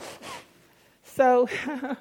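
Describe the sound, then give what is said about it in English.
A person sniffs a couple of times in quick, soft bursts, then talks. “I'm sniffing. I don't want to be sniffing at you.”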